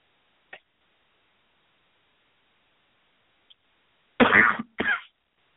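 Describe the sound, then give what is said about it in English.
Coughing after a drink went down the wrong way: two short, harsh coughs close together come after near silence. “Please excuse me. Road's dry. Trying to drink something while I'm talking goes down the wrong way.”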